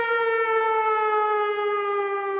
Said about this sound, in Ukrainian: Увага, Волинь. Відбій повітряної тривоги.